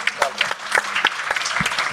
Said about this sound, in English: So I think we should all just take a moment to clap that one person.